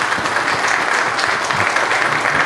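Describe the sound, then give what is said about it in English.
An audience applauds as a guest walks up to join the host, giving a loud, continuous patter of many hands clapping with no break. “why don't we give Ken a round of applause as he comes up”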